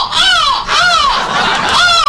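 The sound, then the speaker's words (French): Seagulls calling as they pass, three loud, harsh, drawn-out cries that each rise and then fall in pitch, with no voices. “Les mouettes passent admiratives.”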